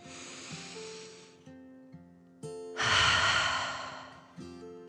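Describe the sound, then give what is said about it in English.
A slow, deep breath drawn in and let out, heard as two long, airy swells of breath. The second swell is louder and fuller, and both sit over soft, steady musical notes. “The little possum took another breath. In and out.”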